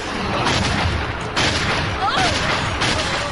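Gunshots in a Latin American Spanish-dubbed film, a few loud, blunt bursts rising out of a dense, noisy wash of sound, with a brief whistling tone between them.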